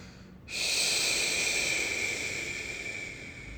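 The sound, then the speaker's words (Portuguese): A deep exhale, a steady breathy hiss of air pushed out in one long breath. It starts abruptly after a brief quiet moment and holds fairly evenly to the end, easing off only slightly. “Mas depois que esse oxigênio cumpre o seu ciclo dentro da gente, é necessário a gente expirar.”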